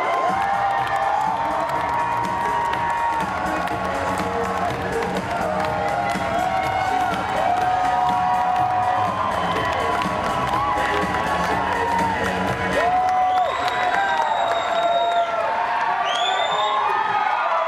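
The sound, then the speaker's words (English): An audience cheers to welcome a speaker at a community event, a dense, continuous roar of shouting and whooping voices with high whoops rising near the end. “Ladies and gentlemen, please put your hands together to welcome Mr. Jordan Hodo.”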